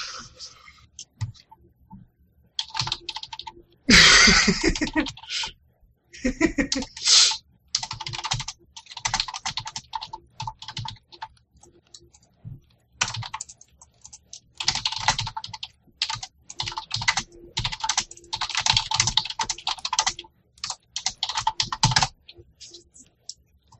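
Typing on a computer keyboard while writing a blog post: many rapid clacking keystrokes in uneven bursts broken by short pauses, heard alone without talk.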